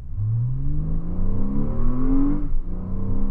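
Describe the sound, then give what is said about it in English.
A computer-simulated sports car engine by Novasim, built as a possible sound for electric vehicles, revs steadily upward in pitch for about two seconds, then drops back and settles into a lower, continuous hum. “By the way, this isn't a real sports car. It's a computer simulation made by Novasim.”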